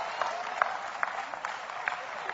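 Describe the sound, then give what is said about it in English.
A church audience claps faintly and unevenly during a sermon, a thin patter of hands with a few sharper single claps standing out. “Oh, come on, clap anyhow.”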